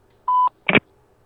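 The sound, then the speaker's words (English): A voicemail tone sounds before a message is left: one short, clear electronic beep at a single steady pitch. A brief burst of noisier sound follows just after it. “You have reached the voicemail box for Midoriya Izuku. Please leave your message after the tone.”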